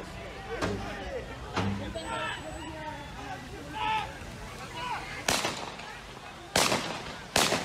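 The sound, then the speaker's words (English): AR-15 rifle gunfire: three loud, sharp, separate cracks ring out near the end, after a stretch of people talking. “That would be the sound of an AR-15 being fired at police.”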